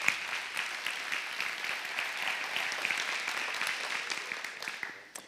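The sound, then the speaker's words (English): Audience applause for performers at a Union Chapel Advent service: dense, steady clapping that tapers off at the end. “Let's give those guys another good hand. Way to go, guys.”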